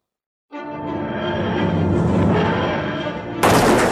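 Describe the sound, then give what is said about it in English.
Gunfire shooting at the TARDIS in a Doctor Who story with Matt Smith's Eleventh Doctor: a dense, sustained burst of shots that sets in abruptly and surges louder near the end. “You shot it! You shot my TARDIS!”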